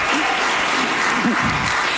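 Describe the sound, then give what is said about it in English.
Audience applause at a political talk: a dense, loud and continuous wash of clapping, with a couple of brief voices calling out over it. “you can clap for that.”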